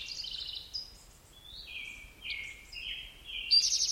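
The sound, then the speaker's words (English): A western tanager sings a series of short, burry whistled phrases at varying pitches. The song is fairly faint over a low background rumble, with no voices. “Western tanager in the background.”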